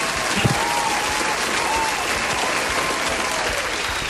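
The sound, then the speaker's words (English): Audience clapping during a quiz challenge, a steady patter of many hands that runs throughout at a moderate level. “clapping”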